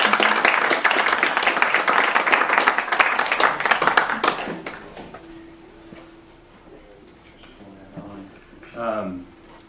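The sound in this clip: Audience applause welcoming a guest speaker: dense, loud clapping for about four and a half seconds that quickly dies away, followed by a single voice beginning to talk.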